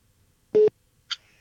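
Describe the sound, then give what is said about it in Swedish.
A telephone call tone on an unanswered call: one steady, buzzing tone lasting a fraction of a second, followed after a short pause by a brief, higher blip, with near-silence around them. “Kanske tar samtalet just nu. Inget svar från Thomas.”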